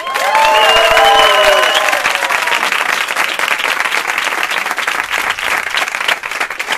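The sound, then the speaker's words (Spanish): A large crowd cheers and applauds. Shrill whistles sound over the first two seconds, and then dense, loud clapping carries steadily on to the end. “estoy aquí con 757.000 personas que participaron en la subasta del ático de Ayuso y que suenan así.”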